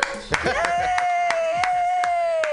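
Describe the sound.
Scattered hand claps from a small audience welcoming a comedian at a comedy show, sounding as a handful of sharp, irregular claps under a sustained cheering voice.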